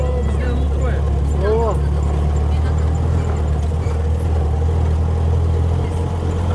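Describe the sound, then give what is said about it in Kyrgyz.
A 1962 UAZ vehicle engine runs with a steady low rumble throughout. A voice speaks briefly over it early on. “Бул машина 62 жылкы экен.”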